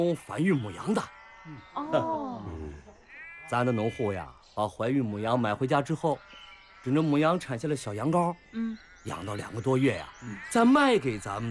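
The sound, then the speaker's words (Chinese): Sheep bleating on a large sheep-breeding farm. Many loud, wavering bleats from several animals come in overlapping bursts separated by short pauses. “你看那羊肥的，啊，这么多羊”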